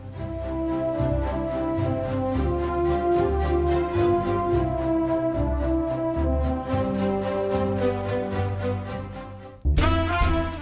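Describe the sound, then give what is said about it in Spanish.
Orchestral main theme from a Spanish period drama television series, played by a real orchestra, with sustained, layered melodic tones at a steady level and a sudden, brighter swell near the end. “Madrid es el nombre de la melodía principal que aparece en muchos momentos de la vida de Sira y que suena así.”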